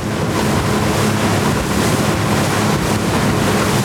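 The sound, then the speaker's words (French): A boat engine drones steadily as the vessel heads slowly back toward Libreville on the open sea. The sound is a loud, unbroken roar blended with rushing wind and water noise throughout. “Dans le bruit du moteur, le bateau rentre lentement vers Libreville.”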